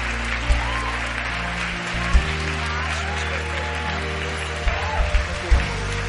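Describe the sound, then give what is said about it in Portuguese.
An audience applauds at a church ministerial ordination service: dense, sustained clapping throughout, with a few louder thumps and low tonal sounds running beneath. “Você pode dar uma salva de palmas ao nosso Deus, porque Ele é bom demais.”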